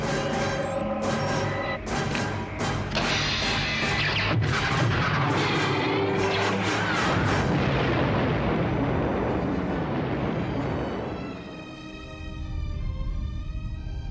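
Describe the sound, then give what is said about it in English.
Super laser firing and a massive explosion, a long loud roaring blast packed with crackling bursts that stays dense for about ten seconds before thinning, dipping briefly and settling into a lower rumble. “Admiral, fire the super laser.”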